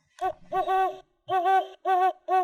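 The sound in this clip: A human voice imitates a great horned owl hooting, with a few drawn-out, clear, tonal hoots separated by brief pauses.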